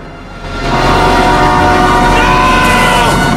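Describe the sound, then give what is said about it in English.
A train approaches on a track, its heavy rumbling roar building quickly in the first half second and then holding loud and steady to the end. “Simon walks down a train track towards an oncoming train.”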